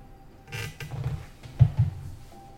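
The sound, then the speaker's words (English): A door latch being opened: faint rustling and creaking followed by two soft, low mechanical clacks in quick succession. “We'll open the latch.”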